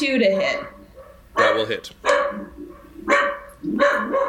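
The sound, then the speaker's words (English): Cattle dogs bark from a nearby kennel in several bursts of sharp, loud woofs and yips, separated by short pauses, while people talk over them. “These are the sounds of mutants woofing in the Seven background.”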